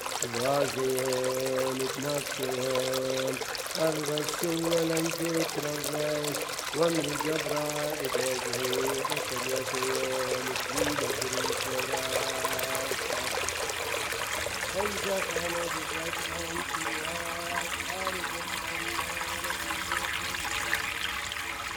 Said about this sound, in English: Running water. We use that to do baptism in our Mandi every Sunday to our people, to our children. Yerdine, flowing water.